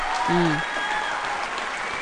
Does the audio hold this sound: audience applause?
yes